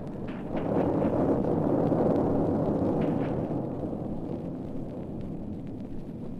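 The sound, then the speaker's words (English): A cannon blast destroys a fort in a deep, loud, sustained roar that swells quickly and rumbles steadily for several seconds, easing slightly toward the end. “It's awesome, sir, that blast. I think, why, yes, it's even taken the fort with it.”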